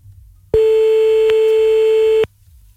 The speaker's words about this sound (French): On appelle maintenant le premier ou la première, on verra bien.